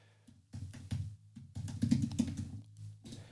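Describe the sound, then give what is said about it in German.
Typing on a computer keyboard: quiet, irregular clusters of key taps with short pauses between bursts. “Roto World, warte, ich schreibe das hier mal rein.”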